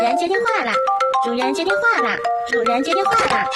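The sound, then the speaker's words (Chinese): A mobile phone ringtone plays a bright, continuous melody of stepping tones with a sing-song voice running over the tune, loud and unbroken throughout. “主人接电话了， 是谁在打电话？”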